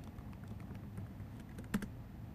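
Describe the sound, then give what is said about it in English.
Soft keystrokes of a password being typed on a computer keyboard, quiet and irregular over a steady low background hum, with one sharper click standing out near the end. “Alt-Tab back over to the, yeah, there you go, put your password in.”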